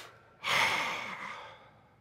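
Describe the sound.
A deep breath drawn in: one long, airy rush that starts abruptly and tapers off slowly over about a second and a half, heard alone without talk.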